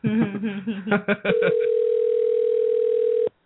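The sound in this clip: A steady electronic telephone tone rings in the background, holding one unbroken pitch for about two seconds right after a stretch of people talking, then cutting off abruptly.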